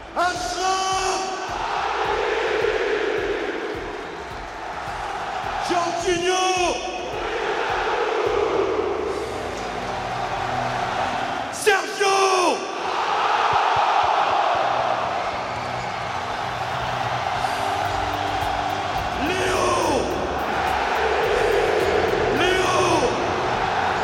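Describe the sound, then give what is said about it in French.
A stadium crowd at the Parc des Princes roars as PSG presents its major new signings in 2021 before the home match against Strasbourg. The sustained cheering swells with shouts and whoops, and voices are heard over it. “Hakimi, Wijnaldum, Donnarumma, Ramos et bien sûr Messi. Ils sont acclamés par un parc des princes en ébullition.”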